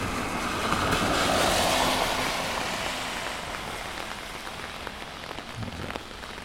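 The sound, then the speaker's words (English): Rain patters steadily on an umbrella during a field recording walk, a dense, continuous tapping that swells a little early on and then settles to an even level. “Of course, I bet you're hearing right now is mostly the umbrella.”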